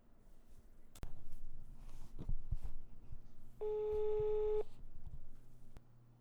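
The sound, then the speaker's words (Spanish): A telephone call being dialed and ringing: a few scattered clicks and handling noises lead to a single steady electronic ring tone lasting about a second, followed by faint clicks and quiet. “Pero va a estar presente en el podcast de qué manera? En llamada. Entonces, pues vamos a marcarle a Betito.”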